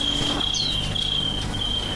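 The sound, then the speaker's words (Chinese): Crickets chirp on an August night, a steady high-pitched trill that drones on unbroken and fairly loud, with no voices. “尤其到那个8月份，没有蛐蛐根本睡不着觉”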